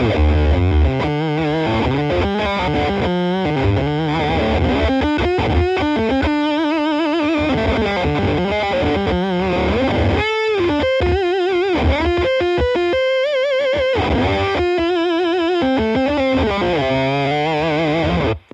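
Fuzz-distorted electric guitar through an amp in humbucker mode, with loud, continuous, saturated notes and chords held with long sustain, the pitch shifting from phrase to phrase.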